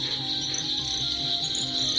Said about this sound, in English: Well, this cacophony of insects and other creatures will be ending soon enough